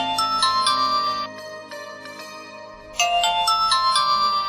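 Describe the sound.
A phone ringtone announces an incoming call: a loud, bright electronic melody of chiming notes plays, drops to a quieter stretch, then repeats at full volume.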